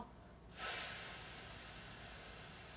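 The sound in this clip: A slow, deliberate exhalation during a relaxation breathing exercise: a soft, airy hiss starts abruptly and then trails on evenly, fading only slightly. No speech is heard.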